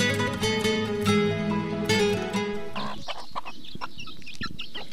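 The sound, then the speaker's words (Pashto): Chickens clucking at a home where they have been spoiling the vegetables. A loud, busy run of harmonic clucks and calls is followed by softer, scattered clucking and scratching. “نور خو مې دې چرګانو بیخي زړه وچوه. ټوله ترکاری خرابه کړې ده.”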